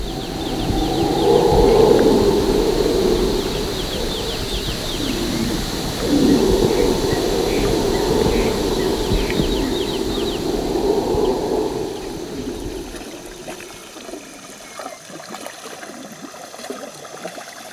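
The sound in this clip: Night-time jungle ambience with birds and water, a dense, continuous chorus of layered animal calls and high buzzing trills over a steady wash of sound. The deeper layer thins out toward the end, and nobody speaks.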